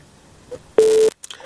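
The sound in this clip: A telephone busy tone follows a dropped call: one loud, steady, mid-pitched beep lasting about a third of a second, set between stretches of faint line noise.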